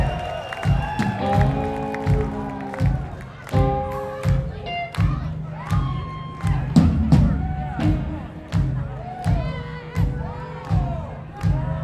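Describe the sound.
An audience applauds and cheers to welcome a band's drummer at a live show, with loud crowd roar, shouted voices over the top and regular heavy thumps running through it.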